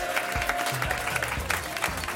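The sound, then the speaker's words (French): Cheering and applause from a studio audience during a radio show fill the whole stretch as a dense, steady roar of clapping, with shouted voices rising out of the crowd noise at times. “sous les hurrahs hystériques d'un public en délire”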